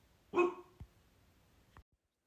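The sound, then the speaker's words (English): A dog gives one short, loud bark at home while another dog barks outside, followed by two faint, low thuds. “I don't know what she's barking at, but my other dog that's outside is barking too.”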